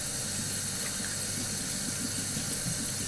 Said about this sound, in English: Right, washing hands.